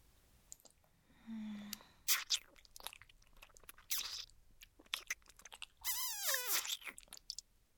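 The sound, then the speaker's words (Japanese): Someone eating, with faint crunchy chewing and biting in short, irregular bursts separated by quiet gaps, and a brief louder squeaky stretch near the end. “食べてる。”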